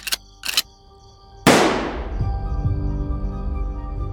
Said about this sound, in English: With a single blast from a shotgun, Ernest Dyer killed Eric Tombe.